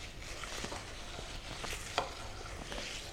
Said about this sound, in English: Keep mixing.